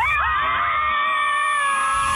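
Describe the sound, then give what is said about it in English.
A group of women screaming together at once, a loud sustained high-pitched chorus of overlapping shrieks that holds steady for about two seconds. “We are all going to scream together. Okay. We're going to let it out. Girls, on the count of three, let it all out.”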